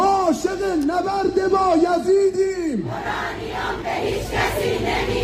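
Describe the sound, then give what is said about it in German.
Street crowd in Iran chanting in call and response: a single strong voice calls out in rising and falling phrases, then a broad roar of many voices answers in unison, staying loud to the end. “Wir haben Krieg erlebt und darunter gelitten, ruft jemand und die Menge antwortet im Chor, wir werden unser Uran nicht abgeben.”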